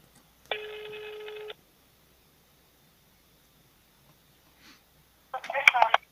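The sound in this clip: Telephone ringing as a call is placed: a single ring tone about a second long, then a long silence and a short noisy burst near the end.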